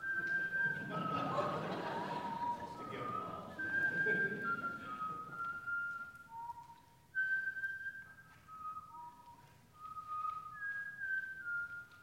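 A person whistles a tune, a clear, bright melody of sustained notes that step and leap between pitches. Some low background noise sits under the first few seconds.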